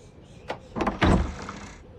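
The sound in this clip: Front door of a stately ivy-covered house being opened, a few short clunks followed by a heavier rattling thud, brief and moderately loud.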